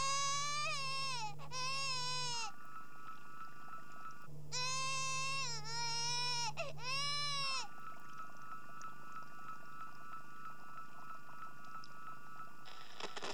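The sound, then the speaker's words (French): Baby wakes crying in a hospital nursery: two bursts of high, wavering wails with sliding pitch, separated by a short pause, then quiet. “Dans la crèche de l'hôpital, le bébé Sangoku se réveille en pleurant.”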